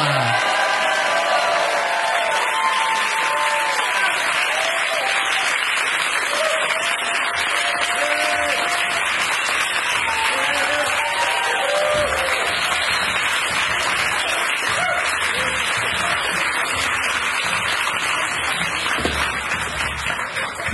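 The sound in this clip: A studio audience gives steady, loud applause that lasts the whole time as guests come out on a live show.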